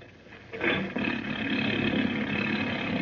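Motorboat engine on the boat Mary Ann turning over and catching, a low rumble that jumps to a loud roar after a brief moment and then runs on in a steady, even drone.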